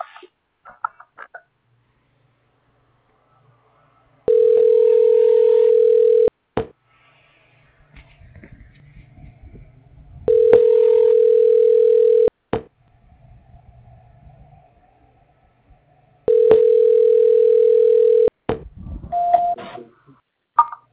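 Telephone tone during a call transfer: three long, steady, mid-pitched beeps of about two seconds each, evenly spaced, with faint low noise in the gaps between them.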